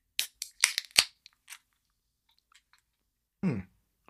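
Beer cans being cracked open: a few quick, sharp, faint clicks and snaps bunched near the start, then near silence apart from a brief burst of rougher sound later on.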